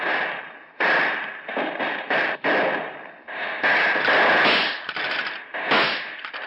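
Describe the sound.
Gunfire in a shootout between gangsters and police armed with rifles: many harsh, loud bursts crowd together in rough, overlapping volleys with only brief gaps.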